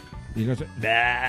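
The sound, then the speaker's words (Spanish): A goat bleats twice in short, wavering calls, the second brighter and more sustained than the first. “El chivo. ¿Es el chivo o el chiva? Chivo, ¿no?”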